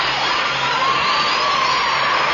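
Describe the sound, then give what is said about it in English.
Prerecorded applause plays as dense, continuous clapping with some crowd cheering mixed in, staying loud and even from start to finish with no breaks. “Puts on record of own clapping.”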